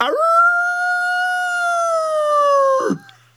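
A wolf howls in one long, steady, clear tone of about three seconds. The howl sweeps up at the start and breaks off abruptly at the end, with no other voices.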